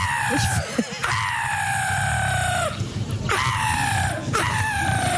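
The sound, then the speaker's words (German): Black-headed gulls give repeated harsh, screeching calls, each one sliding downward in pitch. The cries come in quick succession over a constant noisy background. “Wir haben Möwenarten vorbereitet. Lachmöwe klingt da so ganz anders.”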